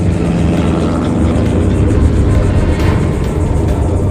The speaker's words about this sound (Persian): اون چیه؟ صدای هواپیمای بمب افکنه.